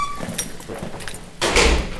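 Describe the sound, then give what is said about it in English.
A heavy metal door at RSW in use, with low rattles and clunks that give way to a loud, broad clang as it shuts near the end. “The last of several doors at RSW opens and clangs shut.”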